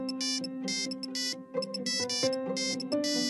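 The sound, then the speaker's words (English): A mobile phone ringtone plays alone, a bright electronic melody of repeating tones broken by rapid buzzing bursts, cycling steadily at moderate loudness. “I think that's my phone. Oh, where did I put it?”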